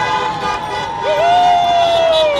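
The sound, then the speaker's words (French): Street celebration in Brooklyn, New York, as Democrats rejoice: crowd noise and cheering with sustained horn-like tones, one sliding upward partway through and then holding steady. “Les gens aux fenêtres qui applaudissent, concert de klaxon.”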